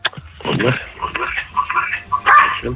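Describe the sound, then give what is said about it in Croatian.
A small dog barks over a phone line in a few short yaps, partly masked by steady talking throughout. “je li to bilo lajanje? Je li to small ili mini dog zbog kojeg se trudite?”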